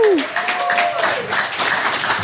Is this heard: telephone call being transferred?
no